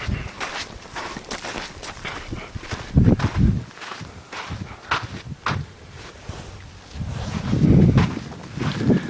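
Footsteps of people walking outdoors on ground where old arrowheads can still be found: a loud run of irregular crunching steps mixed with rustling and wind-like noise, without talk.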